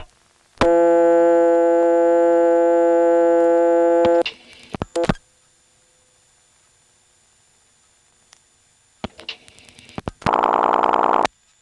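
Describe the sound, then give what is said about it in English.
An independent rural telephone ringtone sounds on a payphone call in Braselton, Georgia: a steady, buzzy harmonic tone holds for several seconds, then a few clicks, a stretch of quiet, more clicks, and a shorter, harsher tone at the end. “This is one of the independent rural ringtones.”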